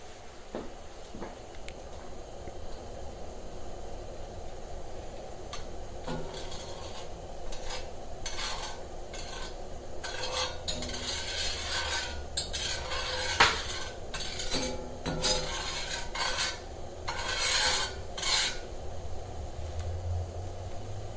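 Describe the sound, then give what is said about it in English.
Metal cookware and cutlery clatter and scrape in a cast iron skillet as a single piece of meat cooks. The scraping and clinking run fairly steadily throughout, with one sharper metallic clink standing out partway through. “let me just cook this just this one piece of meat here. Just very quick.”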